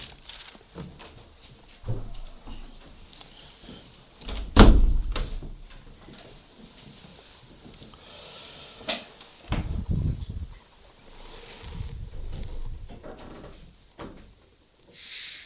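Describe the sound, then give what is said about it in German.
Windows being shut: a sharp knock and thud near the middle, then longer rumbling, sliding and rattling movements. Softer bumps come before and after, with no voices. “Wir schließen jetzt erstmal die Fenster wieder und dann bete ich noch mit uns.”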